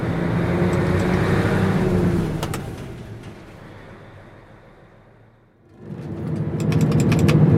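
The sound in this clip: A 24-ton truck from a traveling fairground pulls away from the lot. Its low, steady engine rumble is loud at first, then fades down to near quiet before swelling loud again.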